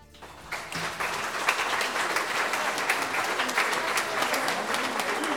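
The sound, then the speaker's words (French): Long ovation from a large crowd: dense, steady applause that swells early and then holds at an even, loud level throughout. “S'ensuivit une longue ovation où la ferveur se teintait de l'espoir irréel d'une liberté retrouvée.”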